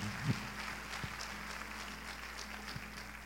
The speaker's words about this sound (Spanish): Sí, un aplauso para gloria de Dios y de nuestra Madre Santísima.